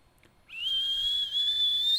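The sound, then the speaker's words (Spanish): Human whistling, a single sustained high-pitched whistle that rises briefly at the start and then holds a nearly steady tone for about a second and a half, clear and alone. “Ese es un chiflido ahí de nuestra parte”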